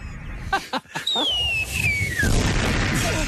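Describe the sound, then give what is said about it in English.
A bomb explosion: a few dull thumps, then a long high whistle that falls steadily in pitch before a loud, sustained roaring blast takes over and lingers to the end. “Why are things exploding? Oh, because it's like the bomb.”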